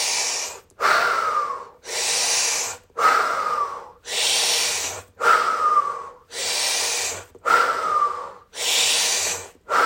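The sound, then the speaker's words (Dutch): Calm breathing in and out through the nose, heard as a long series of loud, airy whooshes alternating between inhale and exhale, steady in rhythm, with brief silent gaps between breaths and no talk. “Adem twee keer rustig in via je neus. En uit via je neus.”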